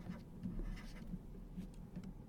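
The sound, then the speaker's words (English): A pen writes the number 38 in blue, giving a faint, soft scratching of a few short strokes over a low hum. “I should write 38 in blue here, just to make it clear that it is the actual travel cost.”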